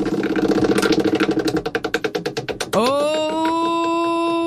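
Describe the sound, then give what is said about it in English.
A prize wheel spins with many rapid ticks that slow and spread apart, then stop and give way to a sustained ringing tone that holds steady to the end. “All right, let's spin tonight's wheel.”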